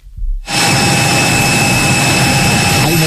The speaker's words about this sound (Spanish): En ese avión volando a Barcelona.